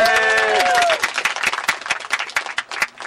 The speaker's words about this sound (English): So let's give a big hand for Gordon Price.